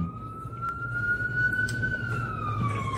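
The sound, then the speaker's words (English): Ambulance siren passing by: a single steady wail that slowly rises and then falls in pitch, fairly faint over a low rumble of traffic. “wait for this ambulance to pass.”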